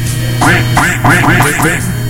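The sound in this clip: A duck quacks in a quick run of a few nasal, raspy calls, loud and closely spaced, over a low steady hum.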